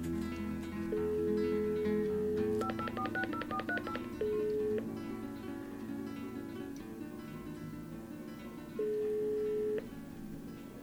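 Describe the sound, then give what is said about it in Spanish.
Touch-tone telephone dialing to call a friend: a steady dial tone, then a rapid run of many keypad beeps, followed by two separate ringback tones with a pause between them. “en este momento nosotros le vamos a marcar y esperemos nos conteste ella”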